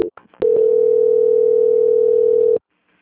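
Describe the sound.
Telephone line tone during a call transfer: a few short clicks, then one steady, unwavering beep at a single pitch that holds for about two seconds and cuts off abruptly into silence.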